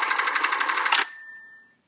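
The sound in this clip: A video game interface sound that resembles an old film projector or sewing machine: a rapid, even mechanical rattle of fast pulses for about a second, then a thin sustained tone that fades out.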